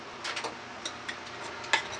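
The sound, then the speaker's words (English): A spoon clinks and scrapes faintly as chickpea and diced tomato soup is stirred in a pot: a few light, irregular taps with one sharper knock near the end. “Give it a little stir.”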